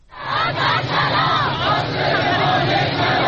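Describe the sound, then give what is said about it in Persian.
Retired social security pensioners at a protest over living conditions in Iran chant slogans in loud, sustained unison, their massed voices forming a dense, continuous roar. “در این اعتراض‌ها شعارهای معیشتی و سیاسی هم سر داده شد.”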